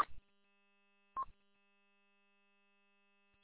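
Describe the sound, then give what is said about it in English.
Short electronic beeps from a radio repeater, a few spaced bursts that are clipped and tonal, over a faint steady tone with no talking. “Are you on the KP8LTS repeater as well, or is that beep beep going to other units, machines?”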